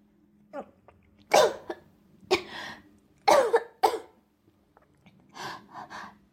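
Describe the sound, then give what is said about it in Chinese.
Harsh coughing from a person who has just choked on a sip of water: several loud hacking bursts with gasping breaths between them, tapering to a few quieter coughs at the end. “没事，刚刚喝水不小心呛了一下。”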